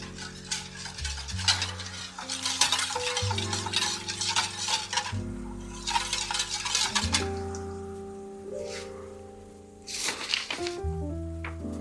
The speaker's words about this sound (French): Et je viens touiller avec un fouet. J'essaye de ne pas inclure trop d'air et de ne pas faire une mousse.